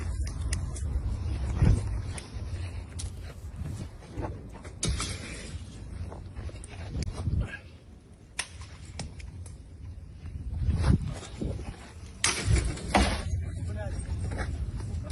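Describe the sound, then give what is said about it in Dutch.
A Molotov cocktail smashes against a Russian army recruitment office: several sharp, bright bursting impacts at irregular intervals over a rough bed of street noise, with voices heard throughout. “En wat je hier hoort is een molotov cocktail die kapot slaat op een recruteringsbureau van het Russische leger.”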